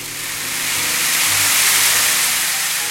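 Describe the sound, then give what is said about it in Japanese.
Azuki beans are poured in quantity into a bowl to imitate ocean waves. The result is a loud, dense, hissing rush of tiny rattles that swells slightly and carries on steadily throughout. “本当海っぽく聞こえるねこれ。今も大量の小豆は器にぶちまけて、”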